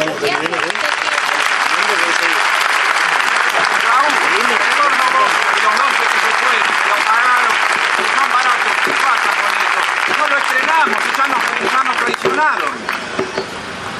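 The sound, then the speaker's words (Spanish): An audience gives loud applause at the close of a citizen-participation session with a legal scholar. Dense, sustained clapping with voices mixed in lasts about twelve seconds before thinning out at the end. “vamos a darle un gran aplauso al doctor Zaffaroni”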